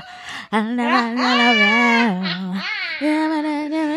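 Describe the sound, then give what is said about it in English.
A person imitates a whine with their voice, a drawn-out, nasal, high-pitched wail whose pitch wavers and bends, delivered in a few sustained stretches with a short break near the end. “I was whining, y'all, if y'all needed a visual.”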